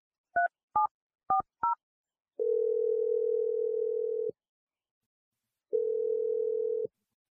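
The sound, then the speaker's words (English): Telephone keypad dialing: four short dual-pitch beeps in quick succession, then a long steady low tone, a pause, and a second, shorter steady tone, with no talk. “I'm going to dial Jamie's number and let you do this.”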